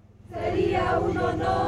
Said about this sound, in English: Since López Obrador, or AMLO, won the presidential elections, dozens of citizens crowd around his office looking for his help.